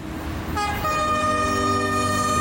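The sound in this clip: A train horn sounds a sustained, chord-like blast over the low rolling rumble of a passing train. It starts a moment in and holds steady and loud to the end.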